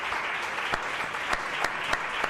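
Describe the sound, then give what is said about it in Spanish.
Audience applause for a guest, a dense, steady wash of clapping that holds at an even level throughout, with a few sharper individual claps popping out above the crowd. “Pues un aplauso para Rubén Acevedo.”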